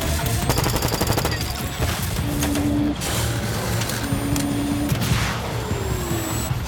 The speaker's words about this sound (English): The drones swoop in pursuit, rounds from their miniguns peppering the snow.